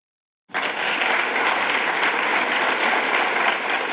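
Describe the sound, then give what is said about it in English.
An audience applauds in a standing ovation after a talk, a dense wash of clapping that bursts in after a brief silence and stays loud and even to the end. “After Taya delivered her talk about All That She Carried, the audience all stood up and gave her a standing ovation for nearly a minute. And as the enraptured audience was still clapping,”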